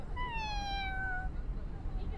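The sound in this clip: A cat gives one clear meow with a gently falling pitch over steady low background noise.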